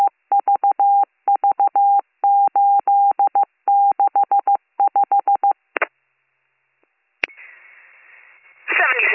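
Telephone dialing tones as an emergency dispatcher calls back an abandoned 911 call from an open cell line: rapid groups of crisp beeps, then a short burst, a click and a steady hiss on the line.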